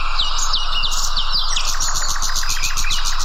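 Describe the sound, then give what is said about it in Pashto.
Birdsong fills the scene as many birds chirp and tweet in quick, overlapping high-pitched calls over a constant steady background. “هلته یې په ځانګړي ډول د مرغانو ژغونو ته ورپام کېږي، خو داسې ښکاري چې دا اوازونه له طبیعته په کمېدو دي.”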